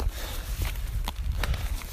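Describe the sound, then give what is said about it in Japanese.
Footsteps crunch over icy snow high on a mountain path, a few crisp steps standing out above a steady low rumble. “もう雪っつか氷っ ていう、氷の上を歩いてるような感じですね。”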